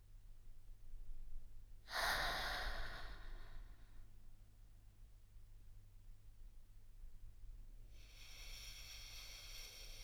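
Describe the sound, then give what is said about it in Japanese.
Slow, deep breathing: two long, airy breath sounds, one early and one near the end, separated by a quiet pause over a low steady hum. “同じようにやってみて。ゆっくりと深呼吸。”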